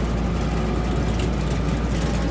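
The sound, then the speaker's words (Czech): Tractors tilling hard, unthawed soil for potatoes on a field near Ostrava, crawling at about 2 km/h, make a loud, unbroken engine drone with a deep low rumble and a broad, noisy wash above it, no voices. “Rychlostí 2 km za hodinu tady traktory prosévají půdu pod brambory.”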